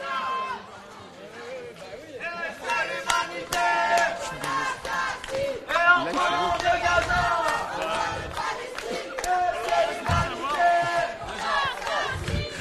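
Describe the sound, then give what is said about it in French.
Students chant at a blockade protest outside a Paris Cité university campus, many voices rising and falling in rhythmic phrases over sharp, repeated percussive beats. “on a des étudiants qui sont mobilisés et qui sont en train de chanter un blocage là devant”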